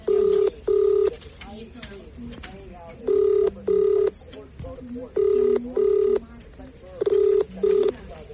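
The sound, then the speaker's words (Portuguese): Telephone ringback tone from a call trying to reach the police command in Quelimane, Zambézia. It plays as four double rings, each a pair of short, steady mid-pitched tones, with pauses between the pairs. “Esta foi a tentativa que fizemos para falar com a polícia da Zambésia,”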